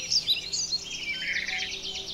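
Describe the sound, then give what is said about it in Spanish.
Small birds whistling and singing in the Aguaragüe forest park, rapid high chirps and trills overlapping almost without pause, fairly clear and alone with no voices. “los sonidos que hay son los silbidos de los pajaritos, los cantidos de cada ave que uno escucha”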